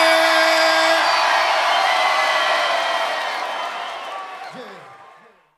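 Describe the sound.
Crowd cheering and whooping in a venue: a dense, sustained roar of many voices that holds steady, then gradually fades out near the end.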